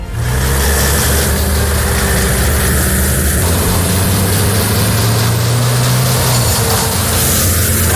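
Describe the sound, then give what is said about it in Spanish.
Trucks of Spain's military emergency unit driving out before dawn from the Morón base in Seville toward Huelva to fight wildfires: a loud, continuous low engine rumble with a droning hum, unbroken throughout. “Este es el ruido de los camiones de la UME que han salido esta madrugada desde la base de Morón en Sevilla para dirigirse a Huelva”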